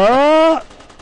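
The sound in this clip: Video-game gunfire: a loud, buzzing tonal burst lasting about half a second, then fainter rapid pulses.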